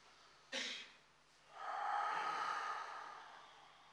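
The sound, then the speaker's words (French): A deep inhale and exhale during a breathing exercise: a brief sharp breath noise, then a long, airy, steady breath lasting about two seconds, faint and alone. “Inspirez, expirez profondément et renouvelez tout l'air en enlevant tout l'air résiduel.”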